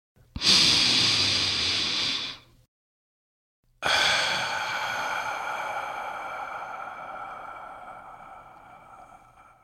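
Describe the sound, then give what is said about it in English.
A deep breath drawn in for about two seconds as a breathing exercise begins, then a brief silence, then a long, steady tone that slowly fades. “And now, if you're ready, let's take that deep breath.”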